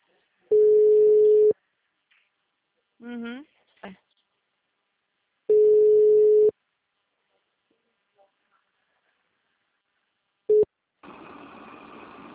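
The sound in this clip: Telephone line tone while placing a call: two long, steady, mid-pitched beeps of about a second each, separated by silence, then a short clipped beep and a burst of hissy line noise.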